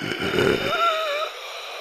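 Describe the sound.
Gasping, rattling breath from a figure trapped in a cocoon: a short rough, breathy rattle followed by a thin, wavering wheeze tone that fades, heard alone without talk.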